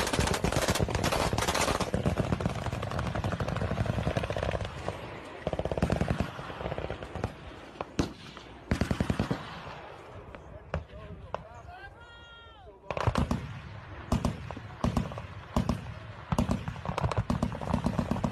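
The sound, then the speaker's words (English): Gunshots fired at something in the sky: many sharp, loud shots burst out in rapid volleys, pause in a brief lull, then resume in a final dense run of cracks. “So they're shooting at something in the sky. Yo. These definitely sound like gunshots.”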